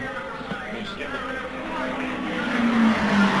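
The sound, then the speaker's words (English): Roger Ward's race car, already lapped by the leaders, roars by on the track near the end of a race. The steady engine noise builds louder toward the close. “There's Roger Ward going by. Of course, he's been lapped by the leaders.”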